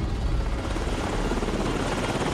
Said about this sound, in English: Somewhere off the coast of Africa, three military helicopters soar over flat ocean towards an aircraft carrier.